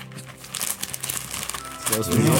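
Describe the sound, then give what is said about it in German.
Wrapping paper on a wrapped present crinkles and rustles close to the microphone in a dense, continuous crackle that grows louder toward the end. “Ja, da hören die jetzt aber wirklich, dass ich auch was eingepackt habe.”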